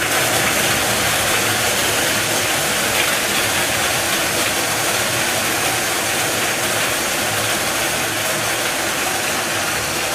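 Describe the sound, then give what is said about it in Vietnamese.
Lottery number wheels whir as five are spun once for the 30 million dong prize draw in the Kien Giang lottery. A continuous, loud, even whirring roar holds steady for the whole stretch, with no talk. “Tiếp theo chúng tôi quay giải 30 triệu đồng, giải này được quay 5 lòng cầu và quay 1 lần. Mời 5 em quay số.”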